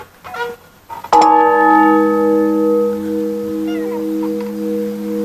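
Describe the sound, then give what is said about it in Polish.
A church bell in Stare Bielsko, in daily use, strikes once loudly after faint scattered sounds. Its bright, layered tone then rings on in a long, steady hum to the end. “Właśnie w przeciwieństwie do swojego słynnego krewnego z Krakowa, ten dzwon codziennie służy wiernym w Starym Bielsku. Niewielka próbka dźwięku, chociaż bardzo cicha.”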